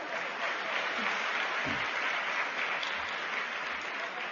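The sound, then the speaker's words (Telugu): Audience applause at a talk to Sathya Sai youth: a steady, dense patter of many hands clapping throughout, with no voices over it. “Claps పడాలి కదా.”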